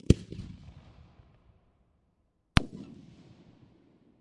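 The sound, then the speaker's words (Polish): A three-shot PT58 firework bomb going off: two loud, sharp bangs about two and a half seconds apart, each trailing into a fading crackle and rumble, with no voices. “Kolejna trzycelowa bomba PT58. Kolejna trzycelówka PT59.”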